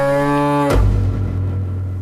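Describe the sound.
A Luxi yellow cow on a farm lows in a long harmonic moo that breaks into a rougher, lower and noisier bellow, loud and alone.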